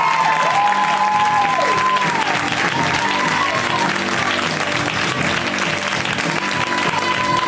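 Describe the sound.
Loud audience applause and cheering welcome a comedian to the stage at a stand-up comedy show: sustained dense clapping with cheers and whistles rising over the crowd, filling the whole stretch without a break.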